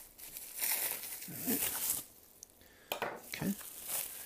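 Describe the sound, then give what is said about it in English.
Packing tape being cut on a heavy delivered package of Kickstarter books, heard as crinkly, scraping, tearing noises in two busy stretches with a quieter gap between them. “Got tape across here. Okay, I'm gonna cut the tape. That way I don't have random tape floating around that could stick onto my books.”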